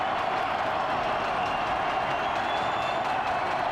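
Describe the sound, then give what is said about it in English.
Stadium crowd roaring at Hard Rock Stadium during a football game, a constant, unbroken wall of cheering and clapping at an even level throughout. “The crowd in full throat here at Hard Rock.”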